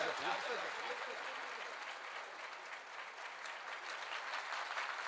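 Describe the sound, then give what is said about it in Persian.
Audience clapping, requested from the crowd at a gathering: dense, continuous, even applause that holds at a steady level for the whole stretch. “بزن کف بزن.”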